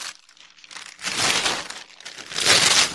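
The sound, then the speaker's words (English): Crisp tearing and crinkling of a sheet of paper printed with show ratings numbers as it is ripped out across a table. Two louder ripping bursts follow a quieter rustle. “Lean across the table and rip it out for me.”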